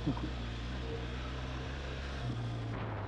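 A motorcycle engine runs during an off-road ride. Its steady, faint, low drone hums with little change in pitch.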